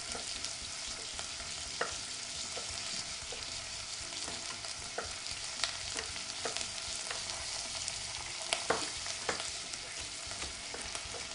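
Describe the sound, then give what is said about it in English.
Onions sizzling as they fry in a pan: a continuous soft hiss dotted with many sharp, irregular pops and crackles throughout, with no talking. “I'm going to give my onions a stir because I'm starting to hear them sizzle”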